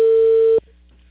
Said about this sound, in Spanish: Justo estoy llamando.